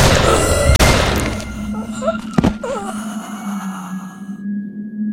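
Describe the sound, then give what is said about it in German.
Gunshots fired at an infected, mutated man: two sharp, loud bangs cut through a dense, rumbling background of noise. “Ich schieß!”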